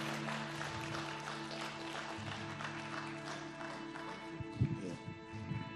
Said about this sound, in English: give Pastor Tracy Armstrong an incredible, incredible round of applause and a great Passion Life Church welcome. Come on, Pastor Tracy.